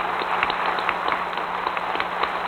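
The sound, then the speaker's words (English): Applause from members of Congress on their feet for the President: a steady, dense wash of clapping that holds at an even level throughout, with a constant low hum beneath it. “The applause continues, the President nodding, grinning, smiling.”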